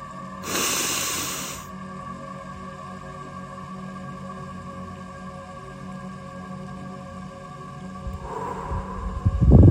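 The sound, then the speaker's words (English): A deep breath taken by a host: a loud, airy rush of breath near the start, then a long stretch of low steady hum, and a second rush of air just before the end. “We're going to take our commemorative breath, as always, and get straight to it.”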